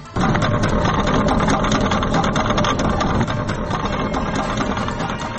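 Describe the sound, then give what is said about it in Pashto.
A people-built cradle crossing over a river, replacing a collapsed bridge in Nurgal, Kunar, gives off a steady, loud mechanical drone with a rushing, engine-like rumble. It starts abruptly and runs on unbroken, easing slightly partway through. “دا د کونړ په نورګل ولسوالۍ کې د نړیدلې پل پر ځای د خلکو له لورې پر سیند د جوړې شوې زانګو ژغ دی.”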